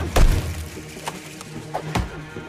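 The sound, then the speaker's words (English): A tomahawk blade thuds into a tree trunk during throwing practice with the tomahawk tied to a rope. A heavy, dull impact comes first, followed by a few lighter, sharper knocks, all fairly faint. “Naru practices throwing the tomahawk at trees, then tugging the rope to draw it back to her hand.”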